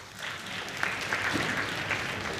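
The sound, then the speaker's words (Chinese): Audience applause welcoming two comic crosstalk performers onto the stage: a steady, fairly faint wash of many hands clapping continuously, with a few sharper claps standing out and no talking over it. “咱们掌声有请二位”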